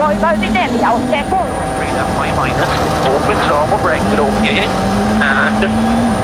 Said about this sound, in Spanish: Lo que estamos escuchando ahora es el automóvil de Esapekka Lapi